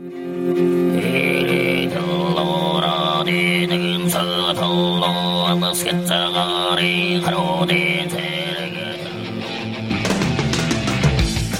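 Mongolian throat singing holds a steady low drone while whistling overtones shift above it. Near the end it gives way to a burst of dense, loud heavy metal.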